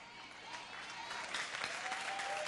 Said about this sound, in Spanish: Démele un aplauso más grande.